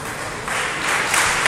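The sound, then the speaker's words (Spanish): The Pumarín basketball crowd applauds an injured player during an Oviedo Baloncesto game against Prat Juventut, with brief applause that swells in volume. “Aplaude el respetable de Pumarín por el buen trabajo que ha hecho Jonas Kaven.”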